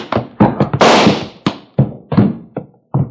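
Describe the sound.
A gunshot during a western fight scene comes amid a rapid series of sharp thuds and knocks, with one longer, louder crack-like burst near the start, the impacts irregularly spaced and loud.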